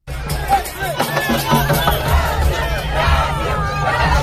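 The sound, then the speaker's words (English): Loud crowd of Brazilian football fans in Times Square warming up before a World Cup match, with continuous massed shouting and chanting and no pauses. “That's the sound of Brazilian football fans there warming up in Times Square for tonight's World Cup match.”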